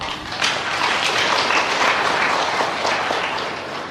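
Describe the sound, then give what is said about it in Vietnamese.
An audience at a Buddhist dharma talk applauds. Dense, even clapping holds steady for four seconds with no voices. “Vỗ tay cho hùng đi.”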